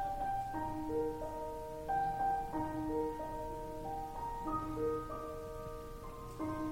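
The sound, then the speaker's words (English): A hospital loudspeaker chime that plays whenever a baby is born, heard as a soft, gentle melody of bell-like tones in a repeating, stepwise phrase, quiet and steady with no voices. “And then I heard it again, and it was the sound they played when a baby was born.”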